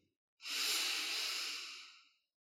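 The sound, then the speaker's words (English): A single deep breath makes a soft, airy hiss that swells quickly, holds steady for nearly two seconds, then tapers away, alone with no talk. “One of them is our breath. Take a moment to experience it. Breathe in deeply.”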